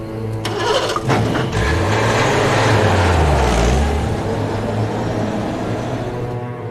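A car engine cranks and catches, revving so its hum climbs and then settles as the car pulls away, leaving a steady, fairly loud drone that fades a little at the end.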